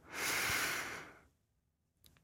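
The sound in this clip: A deep breath drawn during a guided breathing exercise: one long, loud, airy rush lasting about a second that slowly fades, followed by a faint, brief breathy sound.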